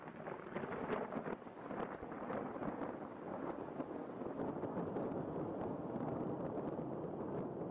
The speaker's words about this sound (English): That's the sound of thunder snow.